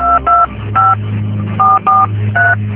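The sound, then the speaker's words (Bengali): Telephone keypad tones beep as a number is dialed to place a call. Six short, loud two-note beeps come in an uneven rhythm over a low background hum. “তুই এক কাজ কর, এখন একবার সবসময়কে phone দে। দাঁড়া, এখনই দিচ্ছি।”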